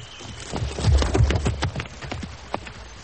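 Horse hooves clip-clop as a rider rides off, a quick run of irregular hoof thuds that is loudest early on, then softens, with one more distinct knock near the end.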